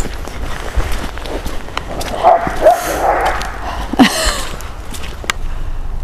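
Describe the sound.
Dogs bark and yip in short, rough bursts, scattered through a few seconds of scuffling movement and running footsteps, with steady background noise underneath.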